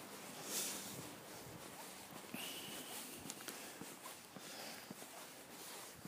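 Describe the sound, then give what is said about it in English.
Footsteps of someone walking outdoors, a faint, uneven series of soft steps over a constant wash of background noise. “So let's just walk and talk and see where we end up.”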